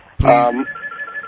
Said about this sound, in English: I'm going to turn off the call-in ring, so now I'm not going to hear it ring.